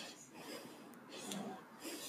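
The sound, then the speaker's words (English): Breathing in close to a Blue Yeti USB microphone, set at high gain, produces a few soft, airy inhales as brief hissing swells amid quiet room noise. “Hear that? That's me breathing in. So if I stay a little back now and I breathe,”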